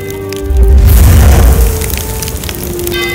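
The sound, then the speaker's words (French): A castle burning, with fire crackling and wood splintering: a loud, deep roaring rumble full of noisy crackle that swells early on and then eases slightly, continuing throughout. “Le château est en flammes!”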